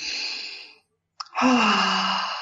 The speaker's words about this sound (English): put the hands on our hearts and take a deep breath.